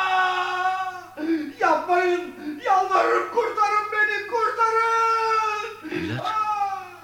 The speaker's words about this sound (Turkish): Bu ses ne? Eski Sultan Uzun Hasan'ın komutanlarından birinin sesiydi efendim. Şah İsmail onun işkenceyle öldürülmesini emretmiş.